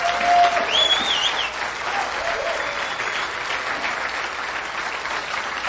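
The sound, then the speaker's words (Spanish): A church audience applauds during a service with dense, steady clapping, loudest at the start. A brief whistle cuts through early on. “Aplauda el nombre del Señor.”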